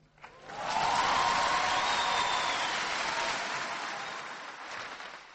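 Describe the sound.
Applause from an audience of about 3,000 greets Barack Obama at his Cairo speech: a dense, steady roar of clapping that swells in quickly and holds loud before easing off gradually toward the end.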